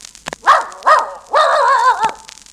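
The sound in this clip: A dog barking: two short, loud barks, then a longer, wavering bark with a slightly shifting pitch, separated by brief pauses.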